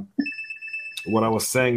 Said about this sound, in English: that is my fault. I was on a call. So I forgot to put ringer off here.